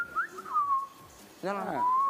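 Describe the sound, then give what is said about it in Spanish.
Person whistling to mimic birdsong: clear, high whistled notes that slide and warble in a few quick phrases, fairly loud and alone, with a fuller, denser burst of whistling toward the end. “Ah, silbó bien, no. No, pero acá hay una polifónica. Pero pará. Tremendo. Así suenan los pájaros de Disney.”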